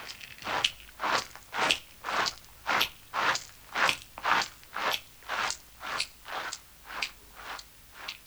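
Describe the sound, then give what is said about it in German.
A soil creature chews a bitten-off piece of leaf, making a steady series of many short, crisp crunches, about two per second, fairly faint and heard alone. “Er hat nämlich gerade eben ein ordentliches Stück aus dem Blatt herausgebissen. Das zerkaut er jetzt, mitsamt der Bakterien und Urtierchen, die da drauf sind.”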